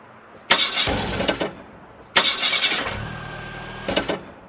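An old car engine cranks and fails to start: two loud bursts of grinding starter whirr, the second longer with a final surge, and the engine never catches. Quiet gaps separate the bursts.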